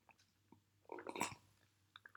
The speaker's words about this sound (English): I'm going to do a little ASMR of my tea real quick.